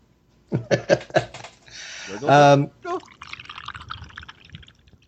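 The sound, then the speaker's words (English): Delaware Wing T beer being opened and poured, a stretch of liquid splashing and fizzing that follows a few bursts of talk, with voices continuing over parts of it. “while I crack open my Delaware Wing T here”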